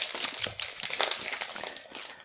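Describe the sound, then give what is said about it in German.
Parcel packaging rustles and crinkles continuously, a busy papery crackle with no voices over it. “was raschelst du denn da rum? Ha? Ich habe fürs Paket geschaut.”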